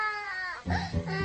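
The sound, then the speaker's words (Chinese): A young child cries in a short wailing sob, a strained, tonal wail that breaks into a couple of louder bursts, fairly loud and brief. “别哭了，你把阿瑶叔都哭诈尸了，你看。”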